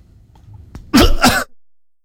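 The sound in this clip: Two harsh coughs in quick succession, loud and isolated, after a faint, quiet stretch and before silence.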